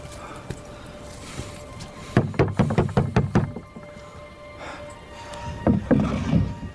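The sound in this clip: Rowing boat crossing water toward a monastery, heard as a quick run of hollow wooden knocks and splashy strokes in one burst, a quieter stretch, then a second cluster of strokes near the end, over faint background noise.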